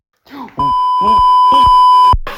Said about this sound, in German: das wird ein Piep ich muss das doch cutten!